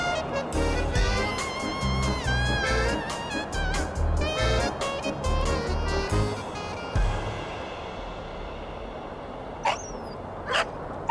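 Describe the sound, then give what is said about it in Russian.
Puppies whimper and yip around a kennel. Thin, wavering high whines come in clusters over low background noise, followed after a pause by two sharp, high squeaks. “Чуть ниже будка, возле которой куча щенков.”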